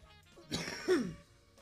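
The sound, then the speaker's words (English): A harsh cough or throat-clearing burst from someone who has just smoked cannabis shatter; one rough, breathy outburst in two quick pushes, fairly loud, with no talk. “we're back after a cough break when I turn the volume down because it's unprofessional to cough in your listener's ear.”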